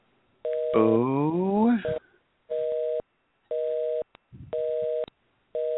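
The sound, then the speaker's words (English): Telephone busy signal on a call-in line that failed to connect: steady tone bursts repeat with even gaps between them, and a voice is heard briefly over the first burst. “Weird noise. All right. So that's a weird... It's called a busy signal.”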